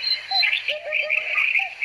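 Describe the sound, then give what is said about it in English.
Hoopoe calling: a few short, soft, low hooting notes spaced apart, heard over a steady, brighter high-pitched chirring background. “There's the hoopoe for you.”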